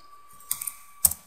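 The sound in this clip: Computer keyboard keys click as a copy shortcut is pressed, giving a few crisp, light taps in two small clusters about half a second apart. They are quiet and isolated, with no speech.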